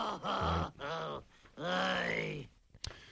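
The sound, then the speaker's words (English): A voice lets out three drawn-out, low groans, the last one longest and falling away, followed by a single sharp click. “Can I groan any louder on this?”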